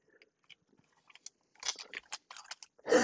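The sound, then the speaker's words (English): Scissors carefully cutting open a sealed pack of trading cards, giving quiet, crisp crackling snips. They start sparse and irregular, then grow denser and louder toward the end. “I'm cutting this really closely because I do not want to damage any of the cards.”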